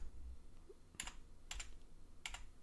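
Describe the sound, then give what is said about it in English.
Three crisp, faint keystrokes on a computer keyboard as a short word is typed into a chat, spaced about half a second apart. “Just type win in the chat. Like this.”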